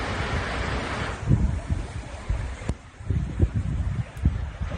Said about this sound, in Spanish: También es un sonido de las últimas horas, en este caso de la cuenca del Duero, en Castilla y León, también desembalsando agua ya.